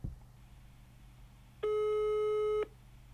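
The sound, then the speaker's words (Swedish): A single steady telephone ringing tone sounds while a call is being placed, lasting about one second. It is loud and clear against a faint low hum, with no voices. “Jag provar att ringa honom och se om han är hemma.”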